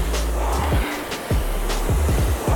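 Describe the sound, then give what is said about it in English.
Rushing whoosh of a RowErg rowing machine flywheel spinning fast, a steady airy roar over a low hum that dips once midway and then surges back strongly. “flywheel spinning fast.”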